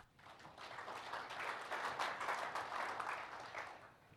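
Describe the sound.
An audience applauds to welcome a speaker. The clapping is faint, swelling in the middle and then fading out toward the end.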